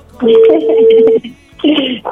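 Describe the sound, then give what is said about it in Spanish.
Telephone keypad tones while a number is being dialed, a long steady tone followed after a pause by a shorter one, loud and mixed with background voices. “Vamos, le estamos marcando a Rigo.”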